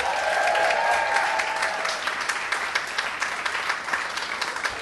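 A studio audience applauds to welcome a comedian guest. The clapping is dense at first, then gradually thins into more distinct individual claps toward the end.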